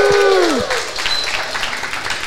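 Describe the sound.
Applause from a live audience at a community anniversary conference, a dense wash of clapping that follows a voice and fades gradually, with scattered individual claps near the end.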